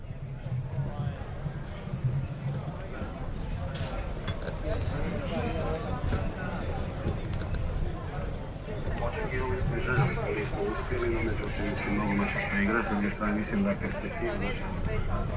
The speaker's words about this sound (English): This is how the square sounds after the defeat of the Croatian football team. Recorded while riding a bike.